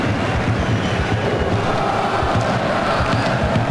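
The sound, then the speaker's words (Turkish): Crowd at a football match in Prague's Fortuna Arena, a dense, steady roar of applause and noise that holds at an even loudness throughout without clear breaks. “Loşek tek başına trafiğin içerisinde ama kaybetmedi topu Loşek. Prag'da alkışlar adam Loşek'e.”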